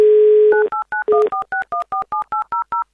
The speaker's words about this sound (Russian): Давайте звонить Евгению. Итак, Амурская область.